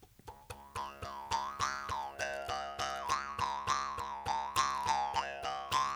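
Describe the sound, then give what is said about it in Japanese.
A mukkuri, the Ainu bamboo mouth harp, is twanged by pulling its string: many rapid, evenly repeated boing-like twangs, each one's wobbling overtones shifting as the mouth shape changes. “弁というか切り込みが入った、竹のなんか棒みたいな形をしているんですが、そこについた紐を引っ張るところでビヨンビヨンと音がするものですね。”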